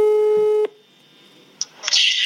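Telephone tone heard while calling a friend: a loud, steady buzzing tone that cuts off abruptly, then a quiet stretch followed by brief higher-pitched beeps and a burst of bright noise at the end.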